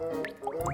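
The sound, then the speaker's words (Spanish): Water drops falling into several containers: three quick, pitched plinks, each with a short upward-sliding ring, over a low steady background hum. “Ese es el sonido de una gota cayendo en varios envases que te regaló tu tía en Navidad.”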